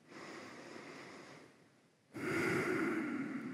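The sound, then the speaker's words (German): Slow, deliberate breathing during a yoga session: a long airy breath that fades into a brief pause, then a louder, fuller breath that carries to the end, heard alone. “gerne ein paar bewusste Atemzüge erstmal.”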